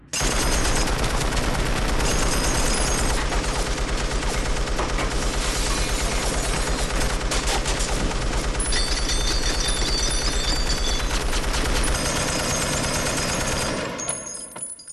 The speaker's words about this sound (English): Gun goes off.